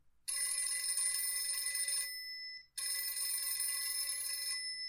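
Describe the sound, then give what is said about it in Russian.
A telephone ringing in a room of a family house: two long, bright, high-pitched electronic rings separated by a short pause, loud and alone without voices. “Звонок раздался в комнате. Это был звонок телефона.”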